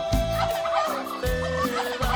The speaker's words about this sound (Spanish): te falta un guajolote. ¿Tenemos un guajolote? Ándale.